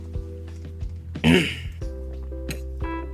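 A single short, rasping throat clearing lasting under half a second, set against a steady low hum with a few faint knocks around it.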